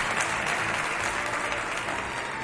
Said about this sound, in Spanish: hoy les saludo con mucho cariño y con este aplauso de nuestro público para que llegue a toda la comunidad, a todo el país.